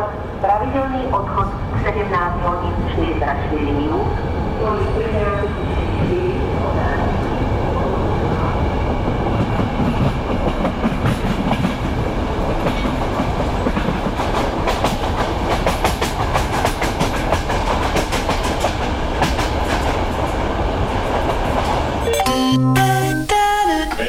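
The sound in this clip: A train runs on rails with a constant rumbling clatter and the rhythmic clack of wheels over joints. The noise stays loud and dense throughout, and brief squealing tones appear near the end.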